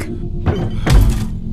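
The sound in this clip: A person faints and collapses to the floor, heard as two dull, low thuds. The second thud is heavier and longer than the first, and no one talks.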